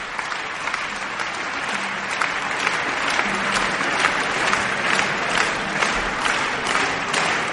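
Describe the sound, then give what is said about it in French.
Concert audience applause fills the Théâtre des Champs-Élysées in Paris: dense, sustained clapping from a large crowd that stays steady and loud throughout, with no break. “Et le public réclame un bis.”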